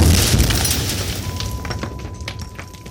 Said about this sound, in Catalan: La detonació ho fa tremolar tot.